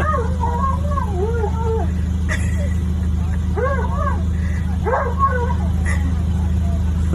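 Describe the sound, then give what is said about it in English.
An excited dog waiting for a whipped-cream puppuccino lets out high, wavering whines and yips in a few bursts over a constant low engine hum. “Dog in front of me is so excited for his coffee.”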